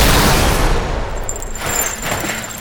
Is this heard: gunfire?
yes